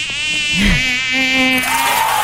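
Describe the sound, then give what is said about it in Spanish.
A fly buzzing, the insect that stayed on a person's hair during a medal ceremony; a steady, loud, high-pitched whine with a wavering pitch that continues without pause. “La mosca era el detalle, efectivamente. Viene todo esto. Era esta mosca que permanecía ahí sobre su cabello.”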